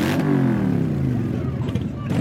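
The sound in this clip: Motorcycles and a sports car rev in a street procession, a loud, dense engine drone with low harmonics drifting gradually downward, heard under talking.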